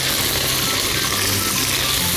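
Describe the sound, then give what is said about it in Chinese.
Shredded chili frying in hot oil in a wok over medium heat after aromatics go in. The sizzle is loud and steady throughout, with no talk. “热锅凉油，中火就可以，啊，烧热了之后下料头，煎辣椒丝”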